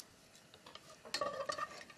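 Faint clinks and scrapes of a utensil in a pot while blanched konjac is stir-fried in sesame oil, with a few light metallic taps clustered in the second half and no talk.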